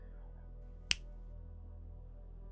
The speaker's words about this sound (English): I want you to notice that every time I snap my fingers,